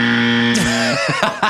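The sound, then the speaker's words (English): A buzzer sounds as a loud, steady, harmonically rich tone held for nearly a second before breaking off into a few short, irregular bursts of sound. “If you get bored during this story, feel free to press play on that buzzer and we will immediately stop talking about it and move on.”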